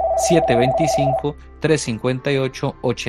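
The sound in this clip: A telephone rings with an incoming call, a steady electronic tone lasting about a second, while voices talk over it and continue after it stops.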